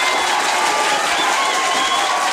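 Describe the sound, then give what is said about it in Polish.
Applause fills the whole stretch, a dense, even patter of many hands clapping, loud and unbroken, with a faint crowd murmur beneath and no speech. “Zdecydowanie należą się panu oklaski.”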